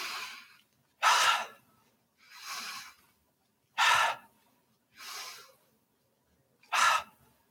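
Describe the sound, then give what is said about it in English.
Deep breathing during a stress-relief exercise: six slow, airy breath sounds forming three in-and-out cycles, with louder, sharper breaths alternating with softer, hissier ones and short silences between. “Now maybe you stand, bounce in place, take 3 deep breaths.”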